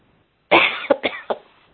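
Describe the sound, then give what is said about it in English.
A person speaking at a meeting coughs in a short fit of several sharp, harsh bursts, one loud cough followed by three smaller ones, after a brief quiet start. “I'm sorry for coughing.”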